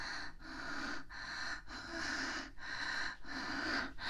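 Heavy breathing, with a steady series of loud, rasping inhales and exhales that come in a regular rhythm, each separated by a brief gap. No talking accompanies the breaths.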